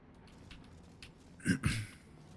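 Gunfire in a video game: two sharp, punchy bursts in quick succession over a quiet background of faint clicks.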